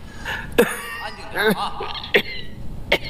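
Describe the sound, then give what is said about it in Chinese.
An elderly man coughing, a few harsh, sharp bursts spaced irregularly through the moment, each with a rough, throaty voiced tail, fairly loud against a quiet background. “怎么咳成这样啊？”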